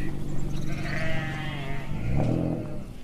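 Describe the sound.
Sheep bleating in a pasture where the flock grazes, a couple of wavering, nasal calls rising over a steady rustling background, fairly loud and without talk.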